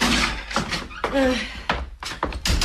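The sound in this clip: A door is opened, giving a few sharp thunks and clunks, with a brief voice heard among them.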